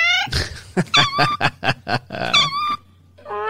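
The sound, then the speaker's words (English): A cat vocalizes in a few loud, tonal, wavering calls, with a run of short, rapid rough bursts between the first and second calls. “That is the sound of Adam's cat.”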